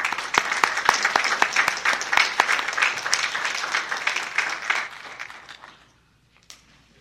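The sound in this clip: Applause from a lecture audience welcoming a professor to speak on Cicero: dense, steady clapping for about six seconds that then quickly dies away to near silence.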